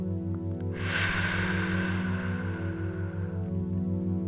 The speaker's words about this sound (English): Let's take a deep breath in and then out.